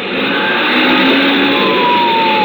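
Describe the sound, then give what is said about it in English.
An emergency vehicle's siren screams as it races ahead to clear the way for a brakeless runaway truck on the Cajon Pass descent. Thin wailing siren tones ride over a loud, steady roar of engine and road noise. “Phil floored the gas pedal and pulled out in front. Sirens screaming, red lights flashing.”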